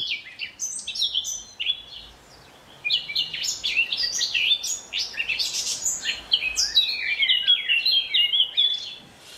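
Birdsong from a small, shy bird with reddish-brown plumage: many quick, high chirping and warbling phrases in bright bursts, with a short lull near the start before a steady run of song.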